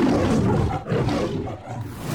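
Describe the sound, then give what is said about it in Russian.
A lion roars in a long, loud, rough growl that fills the whole stretch, dipping briefly twice before surging again. “В разное время в заставках «Метро Голден-Майер» снималось семеро разных львов, а с 2022 года живого хищника заменил цифровой двойник.”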